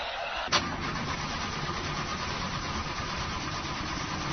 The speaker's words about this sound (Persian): داداش از صفحه کلاژشه متوجه ای؟ آقا استارت نمیخوره.